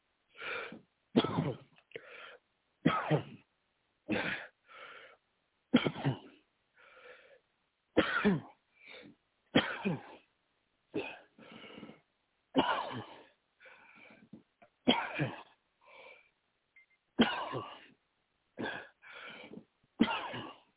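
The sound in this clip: Repeated coughing during a deliverance prayer session, many short, harsh coughs in a steady series of separate bursts spread across the whole clip, fairly quiet overall.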